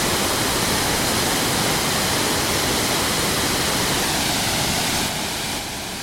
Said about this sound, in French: Voilà, c'est le son de la cascade.